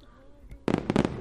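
Fireworks being set off outdoors on a hot night: a sudden loud burst followed by a quick cluster of crackling pops.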